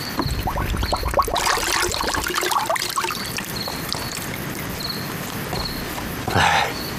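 Liquor trickling and splashing as it is poured into a gourd to fill it, a continuous soft, noisy pour that swells briefly near the end.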